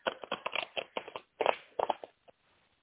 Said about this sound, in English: Would you like me to draw a card for you?